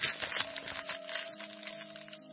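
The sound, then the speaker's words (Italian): A plastic bag rustles and crinkles in a soft, continuous stream, fairly faint, over a low steady hum. “Segue uno stropiccio di una busta di plastica.”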